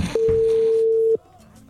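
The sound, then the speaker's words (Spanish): A telephone call ringing out, a single steady ringback tone held for about a second and then cut off, followed by quiet line noise. “Estamos llamando a Jennifer.”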